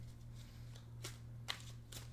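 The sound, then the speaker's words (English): Tarot cards being shuffled by hand: a few soft, brief papery riffles stand out faintly above a steady low hum, with no talking. “Shuffling the cards.”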